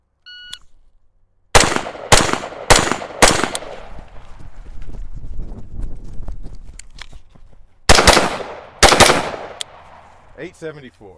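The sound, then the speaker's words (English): Rapid gunfire rings out during a timed practical shooting stage. A short start beep is followed by a quick string of loud, sharp shots, then a stretch of movement noise, and finally another close cluster of shots. “You need to shoot fast and run fast.”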